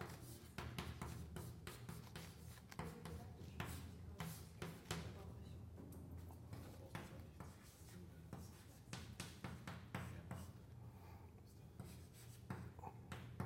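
Writing on a board during a physics lecture, with equations being worked out in components: faint, continuous scratchy strokes run for about thirteen seconds, dotted with occasional sharper ticks over soft background noise.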